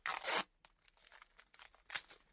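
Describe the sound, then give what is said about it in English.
Tape being torn to bind someone's arms and legs to a chair: a loud, long rip at the start, then quieter crackling pulls and another sharp tear. “Pass me that tape. Yeah. Tie the arms and legs to the chair. And cover the mouth.”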